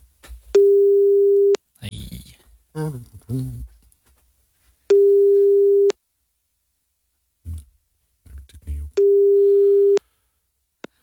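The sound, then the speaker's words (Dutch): A telephone ringback tone plays while a call is being placed: three loud, steady beeps, each lasting about a second and spaced roughly four seconds apart. People talk briefly in the gaps between them. “We gaan bellen, hè, even. Ja. Ik heb zijn nummer hier.”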